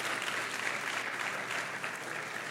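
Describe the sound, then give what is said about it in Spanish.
An audience at a bilingual church service claps in steady, even applause, a faint, uniform patter with no voices standing out. “Dale un fuerte aplauso al Señor. Give the Lord a hand of praise.”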